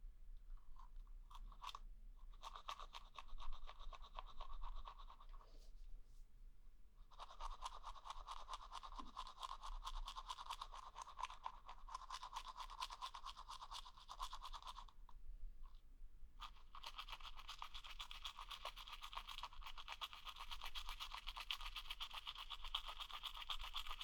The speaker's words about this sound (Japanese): 歯の裏もね。歯ブラシを縦に向けて。